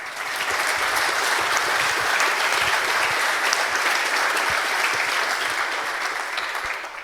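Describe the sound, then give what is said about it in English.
Audience applause at a university computer science conference: a dense, steady wash of many hands clapping, evenly loud from start to finish and holding without a break. “So big applause to the Hochschule Bonn-Rhein-Sieg,”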